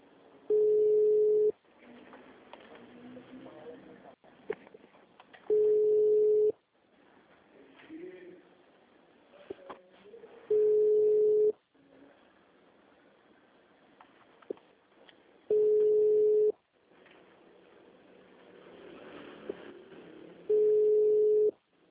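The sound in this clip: Telephone line tone while placing a call: five steady one-second beeps evenly spaced about five seconds apart, with faint background voices between them.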